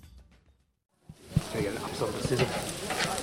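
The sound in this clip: Sausages sizzle on a grill at an election-day barbecue, a steady hissing crackle that starts abruptly after about a second of near silence. A couple of louder pops sound early on, and voices are faintly mixed in.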